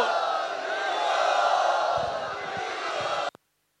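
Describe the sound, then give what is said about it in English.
A crowd loudly and enthusiastically shouts and cheers to welcome a swami at a devotional gathering. The sustained massed voices hold steady for about three seconds, then cut off abruptly. “Let us very, very enthusiastically welcome Him. Hari Bol!”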